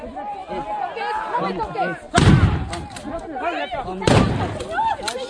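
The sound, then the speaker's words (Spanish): Two loud, sharp gun blasts as police fire at protesters from a few metres away during a street demonstration, each cutting through constant crowd chatter. “En este momento la policía está a 5 metros de los manifestantes y disparando a 5 metros en contacto con los manifestantes.”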